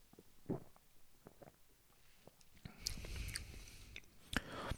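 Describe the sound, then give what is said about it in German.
Sipping orange-flavoured Volt Cola: a few soft mouth clicks and small wet sounds, then a louder, sustained stretch of wet drinking and swallowing noise in the second half, with no talk. “Ja, wie schmeckt denn nun diese Volt Cola Orange? Ich nehme nochmal einen Schluck.”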